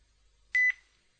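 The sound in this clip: A short, loud electronic beep as a phone call is ended, a bright steady tone in two quick parts that stands alone against near silence.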